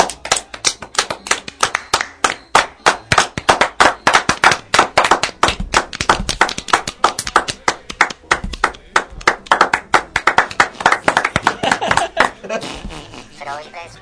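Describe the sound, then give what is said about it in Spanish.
Loud applause made by slapping bare buttocks, a dense run of sharp, rapid slaps that continues for about twelve seconds with people talking over it. “Aplauso de nalga. A ver, todos, bájense los pantalones. Aplauso de nalga.”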